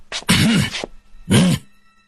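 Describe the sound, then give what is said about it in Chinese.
Two loud, heavy coughs, deliberate and throaty, each a thick burst separated by a brief pause. “连忙重重地咳嗽几声”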